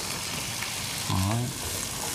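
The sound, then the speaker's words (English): Mushrooms frying in a pan give a steady, even sizzle that hisses through the whole short stretch, with a brief low murmur near the middle. “We're going to go ahead and put the mushrooms in.”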